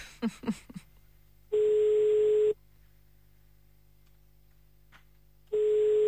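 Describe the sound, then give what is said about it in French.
Telephone ringing tone sounds over a phone line as two long, steady, low buzzing tones separated by several seconds of near silence. The second tone runs to the end, and a few short sounds come before the first. “ton téléphone sonne”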